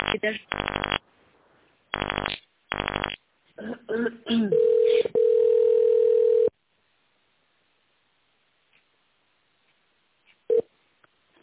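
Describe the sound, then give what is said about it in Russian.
Touch-tone dialing of an extension number on a factory's telephone line: a few short key tones, then a steady single tone, all with a narrow phone-line sound and silence after. “Пожалуйста, наберите в тональном режиме внутренний номер абонента.”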